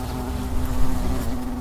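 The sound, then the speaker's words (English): Asian hornets hovering in flight make a steady, continuous low-pitched buzz with a strong droning hum tone, holding level and unbroken throughout with no voices. “And this is the sound of hornets.”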